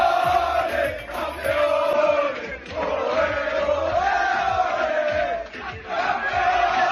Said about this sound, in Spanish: Son los cánticos de campeones campeones dentro del vestuario donde sí ha celebrado la Liga el FC Barcelona.